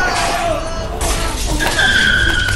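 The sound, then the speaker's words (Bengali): A car comes up from behind on a road and speeds past: a loud, broad rushing roar with a screeching, skid-like tire squeal rising over it in the second half. “হঠাৎ পেছন থেকে একটা গাড়ির শব্দ পেয়ে ওরা ঘুরে তাকানোর আগেই ওদের ধাক্কা দিয়ে গাড়িটা চলে গেল”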